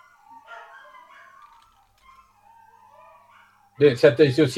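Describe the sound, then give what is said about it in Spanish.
Dogs bark in a loud, rapid burst of several barks at the very end, after a long stretch of near silence with only faint, quiet tones. “Esperen, muchachos, tengo un problemita con los perros.”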